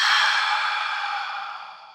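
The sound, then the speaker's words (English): A long audible exhale during a guided breathing exercise: one steady, breathy rush of air that gradually fades over about two seconds, with no talking. “Hold your breath for 4 seconds. Audible exhale for four.”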